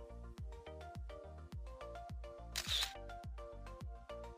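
A single camera shutter click as a selfie is taken, a short bright burst cutting through steady, rhythmic background music with a regular beat.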